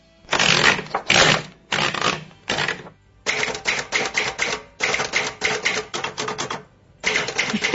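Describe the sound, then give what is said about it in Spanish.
A typewriter typing: rapid clacking keystrokes come in several bursts, each a second or less long, separated by short pauses. “Ese sí, ese acompañó mi infancia, porque mi padre escribía exclusivamente en máquina de escribir, todo lo que hacía, no escribía prácticamente manuscrito nada, así que esto y el carro ese que se corría”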